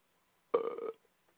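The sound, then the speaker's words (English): A single burp, loud and throaty, lasting about half a second and standing alone against near silence, with only faint traces afterward. “Who did that? That was me. That is disgusting. So you never burped before? You never burped before? Well, you don't got to do it all in my ear.”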